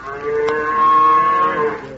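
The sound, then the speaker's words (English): A cow moos as someone gets ready to milk it. One long, loud, drawn-out moo with a rich, buzzy harmonic tone swells up, holds for over a second, and then fades away. “Watch me milk this cow right here”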